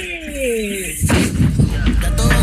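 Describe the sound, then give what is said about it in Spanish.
Bombs explode in a rapid, dense run of loud booming blasts, preceded by a brief tonal sweep that drops in pitch. “¡Bombas, bombas, quilombo,”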